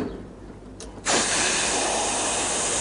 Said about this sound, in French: Ensuite, si vous ouvrez toutes les portes à la fois, ça fait comme ça.